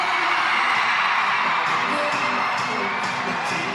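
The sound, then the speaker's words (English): Thousands of children scream and yell toward the stage in an arena during a youth event, a dense, loud, unbroken roar of voices that holds steady throughout. “thousands of kids, 16,000 to be exact, scream and yell at the stage during We Day, Illinois.”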